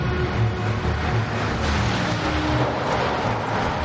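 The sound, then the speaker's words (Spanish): A car approaching: a steady, low engine rumble and hum that holds evenly throughout, with no voices. “Gretel permanece sentada en una de las terrazas. Se pone de pie. Un coche se acerca.”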